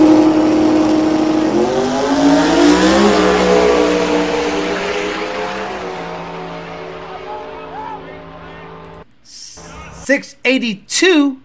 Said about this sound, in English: That was the first round of racing. Then this is against the Supra, the second round of racing.